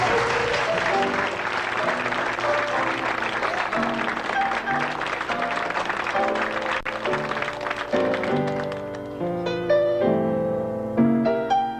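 Audience applause welcomes an 82-year-old singer making a comeback, with sustained clapping blended with music; the music becomes clearer toward the end.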